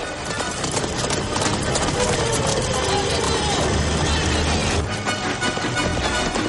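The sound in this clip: A horse gallops across a plain toward a moving train, its rapid hoofbeats pounding within a loud, dense mix of rumbling noise that stays steady throughout.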